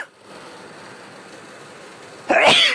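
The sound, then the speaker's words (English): A single sneeze bursts out abruptly at the very end, loud and forceful after a long stretch of faint hiss. “I have to sneeze because”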